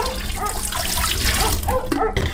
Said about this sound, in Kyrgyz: Насос орнотуп алсак, кадимки суу түтүгүнөн чыккандай агып турат.